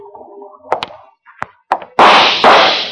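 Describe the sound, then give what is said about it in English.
Gunshots in a radio drama, fired in the fog during a standoff: a few sharp, thudding bangs spaced apart, then a loud sustained burst of noise with a second surge near the end. No voices are heard. “That's five shots, Lud. You got one left to make good on.”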